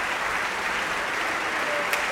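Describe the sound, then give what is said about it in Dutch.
Sustained audience applause for the basso continuo section of theorbo, viola da gamba, cello and harpsichord, after an opera performance at an early-music festival in a large concert hall; dense, even clapping continues steadily with no talk. “Dit is even applaus voor de basse continuo-sectie.”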